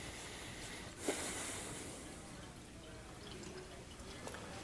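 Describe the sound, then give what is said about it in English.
Running water as a man washes his hands, a steady, faint wash of hiss with a brief splashy swell near the start. “He's washing his hands.”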